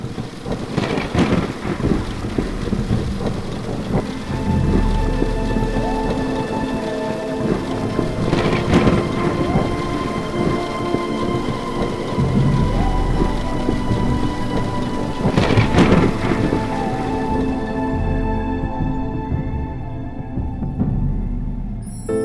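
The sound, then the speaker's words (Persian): Heavy rain pours steadily in a dense, continuous hiss, with several loud claps of thunder breaking through at intervals across about twenty seconds. “آسمان می بارد و می باردش باز”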